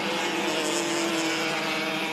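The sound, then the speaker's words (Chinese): Racing cars entering turn twelve give a steady, loud engine drone that holds without a break, with no talk over it. “前面的两台车来到十二号弯入弯。”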